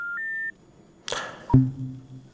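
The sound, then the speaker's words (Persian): A radio listener's phone call is cut off. A short two-step electronic beep comes first, then a crackling burst and a sharp click, followed by a low hum. “متاسفانه که تماس این شنونده ما قطع شد.”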